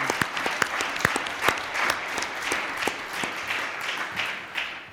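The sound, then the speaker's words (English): Church audience applause welcoming visitors during a service: a dense patter of many hands clapping together at moderate loudness, with a few sharp individual claps standing out, sustained for several seconds. “We want to just give them a hand.”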